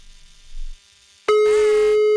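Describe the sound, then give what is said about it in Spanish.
Telephone line tone after dialing: a quiet stretch of low rumble, then a steady, continuous electronic tone that holds loudly to the end. “Marcamos ahora. ¡Morning! A ver si nos contestan.”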